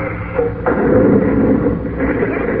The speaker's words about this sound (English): Uh-oh. The robot's reaching for his ray gun. I've got to risk a shot.